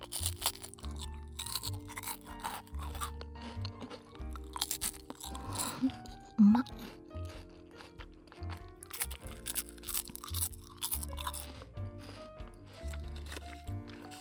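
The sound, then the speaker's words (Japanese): Crunching and chewing of sauce senbei rice crackers, here eaten without the sauce: many sharp, dry crunches in an irregular rhythm, fairly quiet and close, with no talk. “ソースせんべいですよ。ソースついてないけど。”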